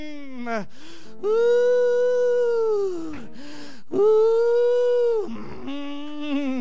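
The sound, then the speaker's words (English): A preacher's voice imitates the groaning of old folks at prayer: several long, loud, wavering moans that swell and sag in pitch, separated by short breaths, with no other sound. “I used to hear the old folks get to praying. Sometimes they get to groaning.”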